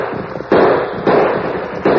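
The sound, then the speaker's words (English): Three sharp gunshots ring out in a radio drama shootout as riders on horseback drive off attackers on a slope. Each blast hits loud and sudden, then leaves a rough, lingering rumble before the next one. “Somebody shoot. That man needs help before those attackers get him.”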